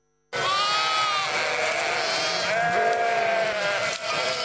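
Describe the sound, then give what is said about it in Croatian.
A hungry, disoriented flock of sheep bleats on and on, with recently lambed ewes among them, caught out in bad weather. Many loud, overlapping calls form a continuous chorus with no pauses. “Ovce gladne i dezorijentisane.”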